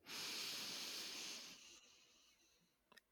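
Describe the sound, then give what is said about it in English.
A person takes a long, deep breath in, a broad, airy hiss that swells quickly, holds for about a second and then fades away to near silence. “we'd like to invite you to drop in and take a breath with us. Inhale.”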